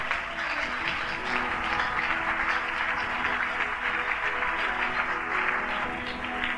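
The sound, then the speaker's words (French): A French-speaking church audience applauds to acclaim God. The dense, continuous clapping stays steady and fairly even throughout. “Est-ce que tu peux acclamer Dieu correctement?”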